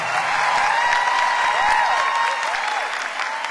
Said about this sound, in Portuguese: Uma salva de palmas, Fabinho Melo.